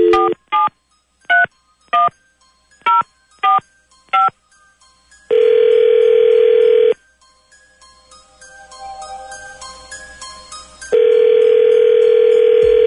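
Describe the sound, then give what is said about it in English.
A telephone dialing a random number: seven sharp touch-tone keypad beeps, then a long steady ring tone, a stretch of faint crackly line noise, and a second long ring tone. “Dialing at random.”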